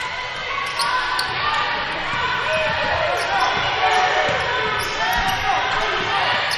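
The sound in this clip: Basketball bouncing on the court during a women's basketball game, repeated thumps under a steady wash of crowd noise.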